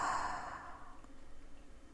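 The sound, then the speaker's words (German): Deep breathing during a guided breathing exercise, in through the nose and out through an open mouth: a soft, airy rush that is strongest at the start and fades gradually, with no talk. “Noch zweimal so. Tief durch die Nase einatmen und durch den geöffneten Mund wieder aus.”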